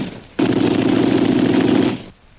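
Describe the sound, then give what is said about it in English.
Rapid gunfire from guns, a radio drama sound effect of shots fired over the heads of fleeing men. It is one loud, dense, continuous burst lasting under two seconds, with no voices. “He's firing over the head, Abu.”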